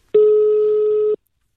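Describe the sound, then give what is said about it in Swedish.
A steady electronic telephone tone sounds as a call is placed to a political party's press office: one loud, unbroken beep lasting about a second, heard alone with nothing around it. “Så det är lika bra att vi ringer till SDs presstjänst.”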